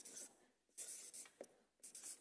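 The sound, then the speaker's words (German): Writing: faint, short bursts of scratching that come in a few irregular strokes with quiet gaps between them, and no voices. “Das schreibe ich genauso auf.”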